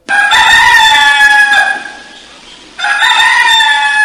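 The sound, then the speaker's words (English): A rooster crows loudly, one long cock-a-doodle-doo that dips near its end, followed immediately by the start of another strong crow. “A rooster.”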